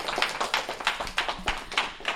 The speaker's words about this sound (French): On peut les applaudir pour leur présence.